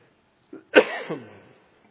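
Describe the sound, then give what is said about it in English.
A man coughs during a church sermon: a brief soft lead-in burst, then one harsher cough with a rough, throaty, voiced tail that fades out, heard alone. “Excuse me. You will find every time we have a substitute preacher, the next Sunday morning I'll cough.”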